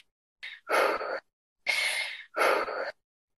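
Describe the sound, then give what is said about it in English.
Someone close to tears takes a few shaky, breathy gasps in and out, each a short airy rush separated by silence, with no talk. “it's getting hard for me. Let me get a breath.”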